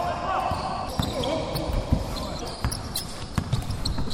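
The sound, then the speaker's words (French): Basketballs bounce on the parquet floor of a lit gym during a team practice with shooting, passing and dribbling drills, giving irregular thuds of varying strength amid faint voices. “Il est 18h dans cette salle de l'Omnisport éclairée. 13 joueurs scindés en deux groupes s'entraînent sur le parquet. Des séances de tir de 3 points, des exercices de passe de balle, dribble et adresse.”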